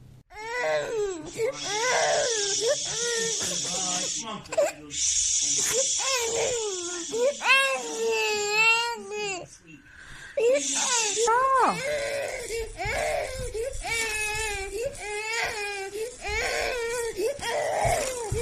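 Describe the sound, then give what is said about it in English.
A hot, miserable baby boy wails and sobs again and again in a played recording, while his foster mother gives long hissing shushes between and over the cries. “and he's crying, and he's getting hot, and he's absolutely miserable, and his mother keeps trying to shush him, his foster mother. We're going to play it now, and you all decide for yourself.”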